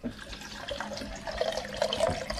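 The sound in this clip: Filtered water poured onto weighed rice before cooking, a steady splashing rush that runs continuously and grows a little louder in the second half, with no talk.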